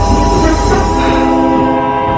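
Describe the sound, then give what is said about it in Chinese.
Passenger train slowly starting to move, a loud, sustained horn blast held steady over a low rolling rumble of the carriages. “列车缓缓地启动了”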